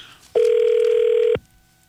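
A telephone call connecting, heard as one steady, loud mid-pitched tone that holds flat for about a second and then cuts off into quiet.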